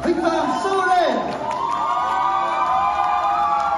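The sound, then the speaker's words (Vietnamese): A crowd cheers, whoops and shouts to welcome the winner of a competition, a steady, loud wash of voices that carries on without a break. “Và chúng ta sẽ cùng dành một tràng vỗ tay để cùng chào đón quán quân”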